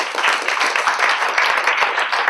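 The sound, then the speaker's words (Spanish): A church audience applauds during a sermon in continuous, dense, loud clapping, with no pauses and no talk over it. “Den un aplauso al Señor.”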